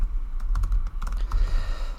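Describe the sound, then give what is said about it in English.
Fingers type on a computer keyboard with many quick key clicks in an uneven rhythm, running over a steady low rumble. “Nope, I'm just typing it in. Oh, you're typing it in the notes.”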